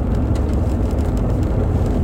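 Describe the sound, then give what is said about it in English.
A car drives on a dirt road into a New Mexico wilderness reserve at 4:30 in the morning, giving a loud, steady low rumble of engine and road noise with no pauses. “I'm driving on a dirt road into a wilderness reserve owned by the state of New Mexico”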